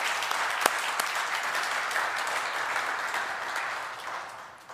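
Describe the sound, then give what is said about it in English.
A church audience applauds in the sanctuary to welcome guests, with dense, steady clapping that holds even and then tapers off at the end. “why don't those who are here present in the sanctuary, why don't we give them a hand of welcome, saying how much we appreciate them.”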